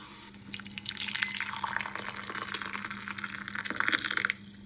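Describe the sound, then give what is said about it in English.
Coffee being poured in a steady liquid trickle that runs for about four seconds and then stops abruptly. “That's the sound of the coffee pouring.”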